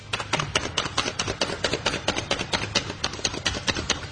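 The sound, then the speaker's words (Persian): Garlic is chopped with a handheld kitchen chopping gadget, giving many quick, even clicking chops in a steady rhythm, fairly quiet and with no talk. “وقتی که سیر رو خورد کردیم با این وسیله که سرعت کارمون خیلی بالا میبره و دستمونم بوی سیر نمیگیره،”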